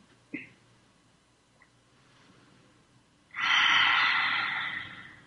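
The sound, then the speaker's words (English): A deep breath in during a guided meditation: one long, airy inhale of about two seconds, loud and steady, rising out of near silence after a faint click early on. “And receive a deep breath in.”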